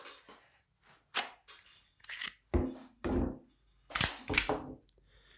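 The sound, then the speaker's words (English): Handling of a Glock 19 pistol, a series of sharp plastic-and-metal clacks and short sliding scrapes separated by brief pauses, fairly quiet and heard alone. “You can probably hear what this pistol is just by the sound of it. Glock 19.”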